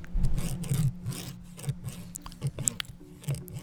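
Crunchy chewing of deep fried shrimp with marinara sauce, close ASMR-style: many irregular crisp crunches and soft rubbing bites over a low hum, with no talk.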